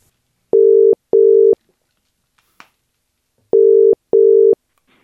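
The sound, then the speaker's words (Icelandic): Ringing tone of an outgoing telephone call: two pairs of steady mid-pitched beeps, each pair followed by a long silence, with a faint click in the gap. “En hér ætlum við að núna síðan að hringja ætlum að hringja í Þorsteinn Halldórsson þjálfara kvennaliðs Breiðabliks”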